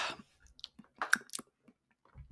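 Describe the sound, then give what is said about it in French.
Someone sipping a cup of coffee, heard as a few soft slurps and small mouth clicks spread across quiet gaps, faint and with no talking. “Je vais boire mon café.”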